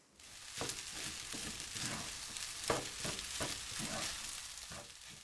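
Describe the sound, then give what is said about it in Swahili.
Rice stirred with soy sauce in a frying pan while making dry curry: a steady sizzle broken by repeated scraping strokes at an uneven rhythm. “ongeza sosi ya soya kijiko kidogo pembeni mwa sufuria. Kisha koroga kila kitu vizuri.”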